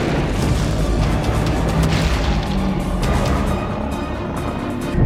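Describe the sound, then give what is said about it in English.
An asteroid impact explosion sound effect roars as a loud, sustained, broad rumble that keeps its force throughout, with no voices. “It would have hit at nearly 50,000 miles per hour. The energy released would be equal to about 100 million nuclear bombs.”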